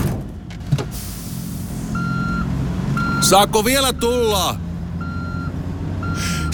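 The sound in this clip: Reversing beeps sound as a car backs up: evenly spaced, mid-pitched electronic beeps repeat over a steady engine rumble, with a brief burst of squealing noise in the middle.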